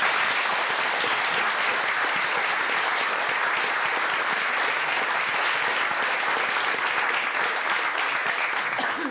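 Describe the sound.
An audience applauds to welcome a speaker, with sustained, dense clapping from many hands that stays even and strong for about nine seconds.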